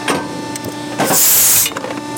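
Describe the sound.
A coin minting press starting up: a few light mechanical clicks and knocks, then a loud airy hiss of under a second midway, followed by more faint clatter.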